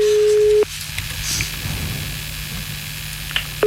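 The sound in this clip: A telephone calling tone plays while someone is being rung. The steady, low hum sounds briefly at the start and again at the very end, with quiet line hiss in between.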